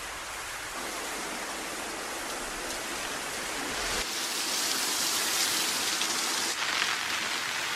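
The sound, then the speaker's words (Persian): Rain falling heavily in a steady, dense hiss that holds constant and grows slightly louder partway through, with no voices. “یه خورده صبر کنیم تا بارون بند بیاد؟”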